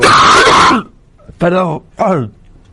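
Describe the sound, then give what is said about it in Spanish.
A harsh, raspy cough from someone with a lingering cough, followed by two short voiced grunting sounds after a brief pause. “Y espero que la tos se me vaya.”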